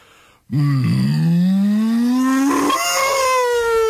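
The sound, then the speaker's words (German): A cow gives one long, loud moo, a low drawn-out call whose pitch climbs steadily and then jumps higher near the end before holding. “Nein, das ist eine Kuh, bitte. Das war eine Kuh.”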